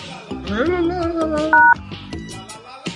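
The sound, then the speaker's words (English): A single telephone keypad tone sounds while dialing into a conference call: a steady two-pitched beep lasting a fraction of a second, with people talking around it. “Oops, I dialed it wrong.”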